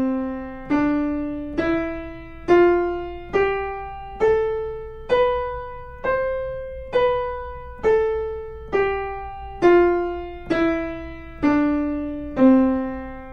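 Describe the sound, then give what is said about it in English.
A major scale played on an instrument: many evenly spaced, decaying tones climbing step by step in pitch, then stepping back down, at a moderate steady pace with nothing else heard. “like this one, the major scale.”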